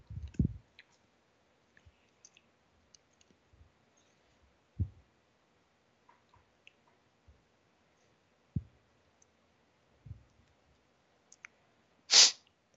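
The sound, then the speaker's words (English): Computer mouse clicks on a Publish button: a few faint, sharp clicks scattered across long stretches of near silence. “And now I can come back over here, and I can click Publish, and it's going to do its thing.”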